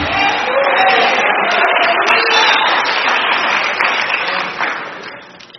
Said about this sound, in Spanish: Denle un aplauso al Señor Jesucristo